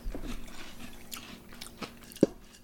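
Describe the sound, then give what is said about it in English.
A single sharp crunch of a bite into a sweet iced snack with a thin, barely-there icing, standing alone against a quiet background with faint rustling before it. “Let's taste. Let's taste these things. And this one looks like it has icing on it”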